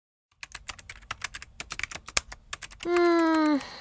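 Typing on a computer keyboard while writing a screenplay: many rapid, irregular clicks of keys, followed by a steady harmonic tone that drops in pitch just before it stops.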